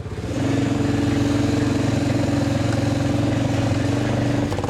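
A vehicle engine drones steadily in low gear while the vehicle is pushed from behind toward a road. The tone is low and even, rising in at the start, holding at a constant level, then cutting off near the end.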